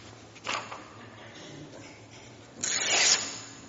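Paper tearing by hand, a short rip near the start and a longer, louder tear later, with a dry rasping texture and faint background sound between them.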